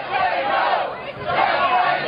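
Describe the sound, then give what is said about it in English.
An angry crowd shouts at a Democratic congressman outside a grocery store in Austin, Texas: a dense, continuous roar of many raised voices, loud and steady, dipping briefly midway. “On Saturday, this crowd ambushed Democrat Lloyd Doggett outside a grocery store in Austin, Texas.”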